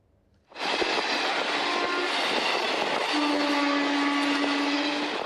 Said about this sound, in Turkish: Fabrika işçilerini taşıyan minibüse tren böyle çarptı.